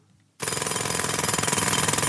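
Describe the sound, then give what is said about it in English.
Pneumatic drill bursting in abruptly after a brief quiet moment, then a loud, rapid, continuous pounding rattle. “which is a pneumatic drill, and leave it playing”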